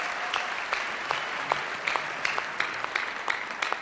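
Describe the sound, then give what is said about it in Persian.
An audience claps in appreciation of a speaker's host. The applause is an even, fairly faint patter of many hands with sharper individual claps popping out at irregular moments throughout. “یه دست بزنید به افتخار داوود.”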